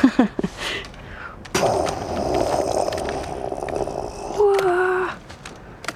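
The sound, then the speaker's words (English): A recorded rocket launch played on tape in a video game: after a second of sparse clicks, a loud crackling roar starts abruptly and rumbles on steadily to the end. “And it's the birthday and the tape of the rocket launch.”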